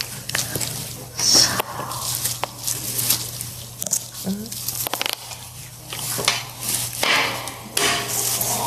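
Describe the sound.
Crisp cutting sounds in an ASMR recording: many irregular crunchy strokes with soft squishy textures between them, over a steady low hum.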